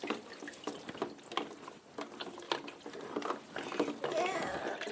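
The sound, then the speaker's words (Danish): Tap water runs while a child's face is washed, a steady, fairly faint flow broken by irregular splashes and small drips throughout. “Må jeg lige vaske dig i ansigtet?”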